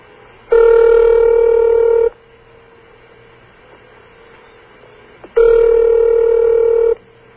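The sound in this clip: A telephone line gives a ringback tone on a call to a 706 area code that is not supposed to exist. Two loud, steady ring tones of about one and a half seconds each are separated by a long silent gap, with a faint click just before the second.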